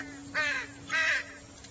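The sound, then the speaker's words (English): Crow cawing from a tree: two harsh, raspy caws in quick succession, each a short nasal burst, clear against a quiet background with a faint steady hum. “Is your spirit in the crow sitting on the tree over there?”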